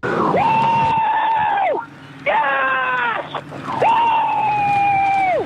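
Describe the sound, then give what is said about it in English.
High-pitched wail of a Ford Mustang Supercar racing, heard as three sustained engine howls, each holding a steady pitch before dropping sharply, separated by brief lulls. “I think it's Will Brown from Red Bull in a Ford Mustang.”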